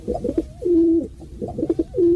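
Pigeon cooing, loud and close: two throaty phrases, each a few soft guttural notes rising into a long, steady, low coo, repeated in a slow rhythm with no voices.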